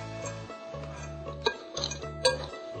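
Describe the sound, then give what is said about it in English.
A whisk stirs oats, flour, salt, baking soda and chocolate chips in a bowl, giving a steady, rhythmic swishing with a couple of light clinks against the bowl. “So we just mixed the oats, the flour, the salt, the baking soda, and the chocolate chips. And we will mix them with a whisk”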